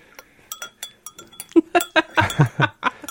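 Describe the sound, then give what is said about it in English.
A spoon stirring in a cup makes a quick, irregular run of many light metallic clinks and taps against the cup. They start faint and become louder and fuller partway through, with no talk. “Shall I play my stirring sound?”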